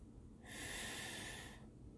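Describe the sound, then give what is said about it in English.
A deep breath drawn in during a guided gratitude meditation, with a hand on the heart: one soft, airy inhale lasting about a second, swelling smoothly and fading, faint and alone. “So now I want you all to put your hand on your heart. Take a deep breath in.”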